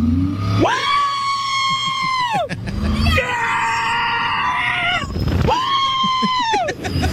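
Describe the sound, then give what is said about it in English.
Riders screaming on an outdoor roller coaster: three long, loud, sustained group screams, each swelling and then dropping away, separated by short breaks of rumbling ride noise. “I pulled up a video of people riding the coaster to see really how it sounds. Okay. Let's listen.”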